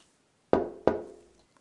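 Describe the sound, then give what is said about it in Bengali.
Two sharp knocks strike a door, each with a short resonant decay. The knocks stand alone against near silence. “এবার তো মনে হচ্ছে কেউ দরজায় knock করছে”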